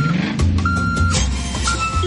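Truck reversing beeps: a steady high tone sounds in a few evenly spaced, repeating beeps over a continuous low rumbling engine.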